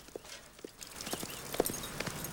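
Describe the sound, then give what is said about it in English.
Hooves of a horse ridden over a hill crest toward a campsite, a faint, uneven clip-clop of many hoof strikes that grows slightly busier and louder toward the end. “Doc rides over the crest of a hill. Billy watches him ride towards the campsite.”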